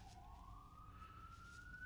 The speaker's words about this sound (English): I'm at the airport. The joke police are coming for me. No, it might be an ambulance.